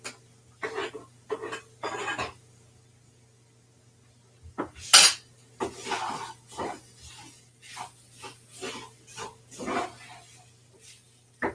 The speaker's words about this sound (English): Let me stir up my cheese sauce.